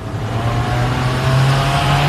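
A car drives fast, its engine a loud, continuous droning roar whose low tone edges slightly higher partway through, with no talk over it.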